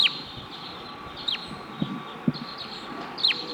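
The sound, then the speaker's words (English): Wild birds give three short, high chirps that sweep downward, spaced well apart over steady background noise, with a couple of soft, low thumps in between. “There may be wild birds here.”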